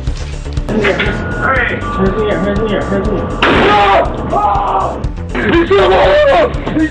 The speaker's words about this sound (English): surveillance video that shows an elderly store owner turning the tables on a group of armed robbers in Southern California. One of the suspects enters the store with a rifle. Within seconds, the owner grabs his shotgun and opens fire.